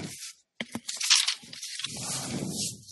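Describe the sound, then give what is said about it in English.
A cardboard Geek Fuel subscription box, the March box, is ripped open in a few sharp tearing and crunching bursts, then rustles more steadily as the flaps give way. “All right. Ripping this one open.”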